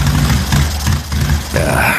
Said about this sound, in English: Bike sputtering on me.